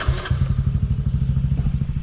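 Motorbike ridden into a garden, its engine giving a rapid, steady, low thumping putter with rhythmic pulses throughout.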